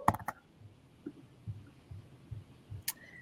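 Computer mouse clicking: a quick cluster of sharp clicks at the start and one more click near the end, faint over a quiet background.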